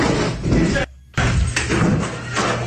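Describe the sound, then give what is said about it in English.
Heavy thuds and clatter of a trash can striking a man over and over, loud dense blows in two long bursts split by a brief pause, with voices mixed in. “This is the trash can hitting the man over and over.”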